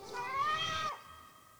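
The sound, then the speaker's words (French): A single drawn-out cat meow, tonal and fairly soft, with a slight rise and then a drop at the end, followed by a quiet fading tail. “Je crois l'avoir entendu miauler.”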